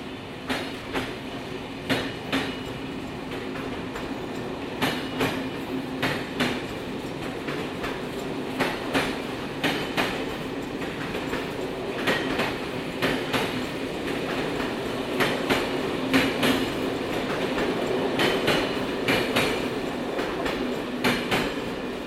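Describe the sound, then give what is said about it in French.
A TGV high-speed train in motion, with a steady low rumble under many regular clickety-clack beats of wheels over rail joints, fairly loud and building slightly toward the end, with no talk. “Le TGV numéro 5400.”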